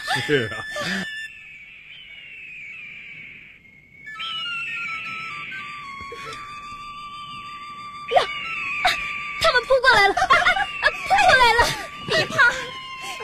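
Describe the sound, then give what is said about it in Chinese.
Mountain eagles cry as they arrive, shrill drawn-out screeches that slide downward in pitch, repeated several times, followed by a cluster of sharper, shorter calls. “啊、瞧，山鹰来了、 哎、真的、哎啊、飞来了一只、啊、两只、啊、这么多的山鹰啊。”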